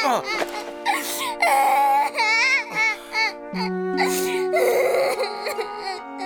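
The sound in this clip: Someone cries and sobs in a Japanese anime drama CD, a loud wavering voice with long wailing notes broken by shaky, whimpering breaths, rising and falling in pitch throughout.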